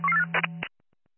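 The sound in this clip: Telephone dialing tones carried over a dispatch radio channel: short electronic tones above a steady low hum, then a few brief bursts, then silence.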